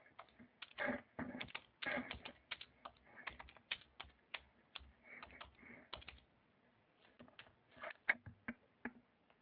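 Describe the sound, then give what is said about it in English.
Typing a message on a computer keyboard: many faint, crisp key clicks in uneven bursts and runs, with brief pauses between words, heard alone without talk. “Here, I'll type in a message.”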